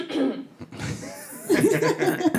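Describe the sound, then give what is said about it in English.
A person clears their throat with a rough, raspy burst, followed by short voiced sounds that waver in pitch. “Yeah, clear that throat.”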